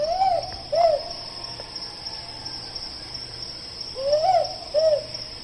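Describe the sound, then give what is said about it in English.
Calls of a Mindanao or Camiguin hawk owl: two pairs of short hooting notes, each rising then falling, separated by a pause, over a steady high-pitched insect drone. “so even though these two forms, the Mindanao hawk owl and the Camigan hawk owl, are found on islands that are within easy sight of each other, they're so incredibly different,”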